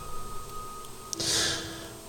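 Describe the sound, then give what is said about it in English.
A speaker draws in a sharp, audible breath. A tiny click comes first, then a brief airy hiss of about half a second, with no talk over it. “oh no, I took a breath there.”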